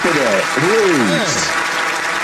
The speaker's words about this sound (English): Yeah, let's give her some claps, guys.